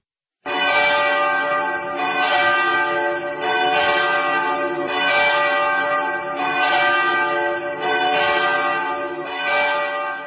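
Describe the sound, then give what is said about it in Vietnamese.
Large bell of Hanoi's cathedral ringing urgently the day before Christmas 1959, a loud rich tolling that starts abruptly and repeats in steady strikes about every one and a half seconds, with a sustained ringing hum between them. “Tiếng chuông nhà thờ lớn Hà Nội dục dã vang lên chỉ một ngày trước lễ Giáng sinh năm 1959”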